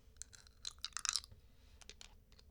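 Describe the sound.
Faint crunching and chewing of a lemon-flavored snack: a handful of crisp bites cluster together, then trail off into a few lighter crunches, quiet and isolated with no talk.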